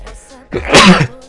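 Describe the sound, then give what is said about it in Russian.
A single loud human sneeze bursts out sharply and dies away in under a second. “Вот видите, даже чихнул в подтверждение своих же слов.”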